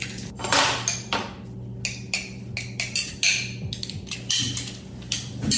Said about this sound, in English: You could either cut up the garlic by hand, or you could put it into the garlic press. About 3 or 4 cloves should do it.